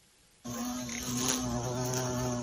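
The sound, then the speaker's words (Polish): A violet carpenter bee, a large, stout, black-bodied bee up to 3 cm long, buzzes loudly and steadily. The low, rich drone begins abruptly after a moment of near silence and holds without a break. “do Polski po latach emigracji powróciły uważane za wymarłe fioletowe pszczoły, fachowo nazywane zadrzechniami fioletowymi.”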